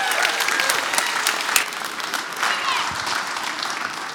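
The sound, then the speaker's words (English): Applause from a church audience welcoming the morning's preachers, a dense, steady clapping that holds at an even level for the full four seconds. “Would you give me a hand this morning welcoming our preachers and Josh Heinrich this morning?”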